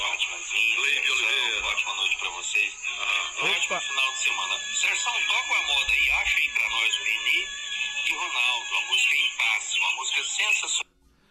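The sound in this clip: A small battery-powered portable radio plays somewhere in Brazil. Its thin, tinny broadcast voice and tones run steadily for about ten seconds, then stop abruptly.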